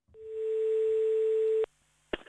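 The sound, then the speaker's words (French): A telephone call tone on an outgoing call: one steady, unbroken mid-pitched tone lasting about a second and a half, then cutting off abruptly, followed by short clicks. “si on passait un petit coup de téléphone à Anatole, votre sommelier.”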